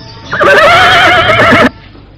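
Horse neighing: one loud, wavering whinny lasting over a second, bright and tonal with a quivering pitch, heard alone with no talk.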